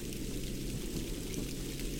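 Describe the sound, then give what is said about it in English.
Underwater sounds in a pond with aquatic insects: a steady, dense wash of watery noise, even and fairly loud throughout, with a low rumble underneath. “slowly lowered ourselves into the pond and started to hear those underwater insects and all of those cool little pingy type sounds.”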